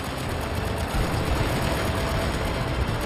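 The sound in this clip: Motorboat engines roar as commando boats land during the British WWII raid on the German naval base at Saint-Nazaire. The dense, steady drone is loud and continuous throughout.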